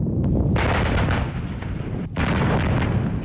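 Artillery fires on a target area during a military exercise, a loud, continuous rumbling barrage of booms with one brief dip in the middle and no voices.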